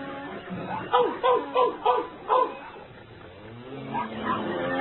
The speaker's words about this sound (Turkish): Neler oluyor orada? Köpek yoldaşlar neden düşmanca havlıyorsunuz?